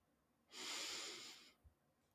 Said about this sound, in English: take a moment to open our time together with a few deep breaths, bringing our awareness to our breath and breathing energy into this moment